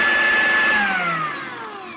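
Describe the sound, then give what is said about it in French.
A food processor blends mimolette, parmesan, flour and butter into a crumble with a loud, steady whirring motor. Its whine drops in pitch and fades somewhat toward the end as the motor slows. “Vous n'avez plus qu'à préparer votre crumble en mixant la mimolette, le parmesan, la farine et le beurre durant une minute.”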